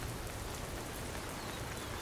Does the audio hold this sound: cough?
no